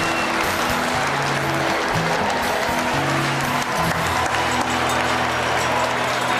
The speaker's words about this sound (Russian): Все аплодируют.